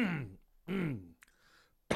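Throat clearing from a tickle in the throat: two voiced, gruff clearing sounds separated by a short pause, followed by a faint click and a soft breath.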